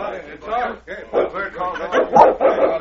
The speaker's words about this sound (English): See, the dog obeys him.